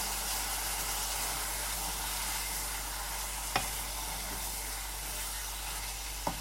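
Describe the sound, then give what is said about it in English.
Tomato puree is stirred into a frying pan. A steady, hissing sizzle runs throughout, with two brief, sharp utensil clicks against the pan. “Actually, I end up doing more than that because I give a good squirt out of the tube. And then I'm going to mix that in.”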